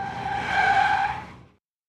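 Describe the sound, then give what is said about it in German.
Tires squeal as a car drifts: a sustained, strident screech with a steady tone that swells to its loudest midway, then fades and cuts off abruptly after about one and a half seconds. “Das ist ein Auto, das driftet. Ja, Reifen quietschen”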